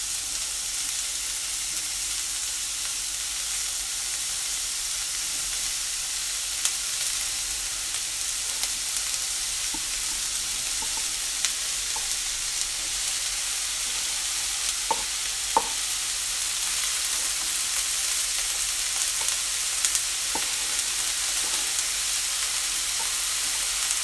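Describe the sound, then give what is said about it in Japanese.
Onions sizzling in a frying pan while curry is being cooked: a steady, even hiss with scattered faint crackles and pops throughout, no voices. “フライパンに今ね玉ねぎを投入しました”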